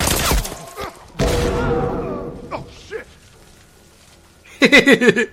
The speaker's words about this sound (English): Now they're shooting at me.